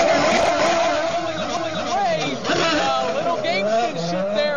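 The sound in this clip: IndyCar race cars pull away at the green flag with a loud, sustained high engine whine that wavers as they accelerate, while a commentator talks over it.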